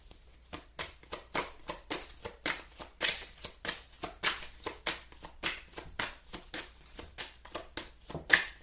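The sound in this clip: Playing cards being shuffled by hand during a card reading, a long run of many quick, crisp rustling strokes at an even, steady rhythm, moderately faint, with no talk.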